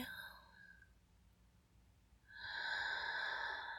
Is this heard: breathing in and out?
yes

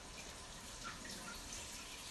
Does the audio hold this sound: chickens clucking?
no

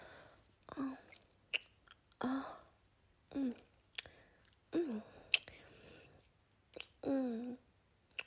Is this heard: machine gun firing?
no

